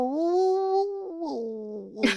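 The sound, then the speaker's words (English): A voice imitates a dog howling in its sleep: one drawn-out, wavering moan that dips lower partway through and ends in a short breathy burst. “howling in his sleep, which he doesn't howl when he's awake. So I guess he was just dreaming.”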